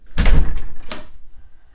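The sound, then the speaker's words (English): A door slams shut with a heavy, loud thud, followed a moment later by a second, shorter bang, then a quiet fade with no talk. “All right, slamming door about to occur. Another slamming door.”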